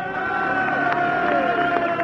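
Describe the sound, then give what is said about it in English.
Crowd cheering as Joey Dunlop rides his little 125 motorcycle in after winning race 26, his third victory of the week. The roar of cheers and voices stays loud and steady throughout. “Sure to be a tremendous cheer here as he swings in for the third time this week as a victor.”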